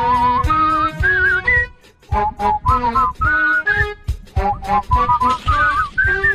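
A man whistles a lively, bouncy melody along to a song in quick, bright runs of notes, breaking into short phrases with brief pauses between them.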